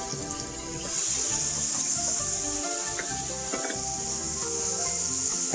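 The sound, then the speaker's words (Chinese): Green and red peppers sizzle with softened onions in a pan, making a steady, hissing fry with scattered small crackles. The sizzle grows slightly louder after about the first second and then holds even. “洋葱呢煮到有点透明的时候呢，我们就可以把我们的青椒跟红椒呢加下去了啊”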